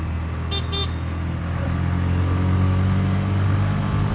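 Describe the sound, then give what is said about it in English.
Engine of a new Bajaj BS6 motorcycle running on the road, a steady low drone that lifts slightly as the throttle is blipped, with two short horn toots early on. “That's what I tend to do, rev up, just a little bit.”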